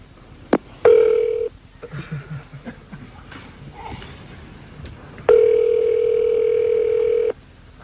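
Ringback tone on a telephone call: two steady tonal beeps, a short one and then a longer one of about two seconds, with faint low sounds in the gap between them.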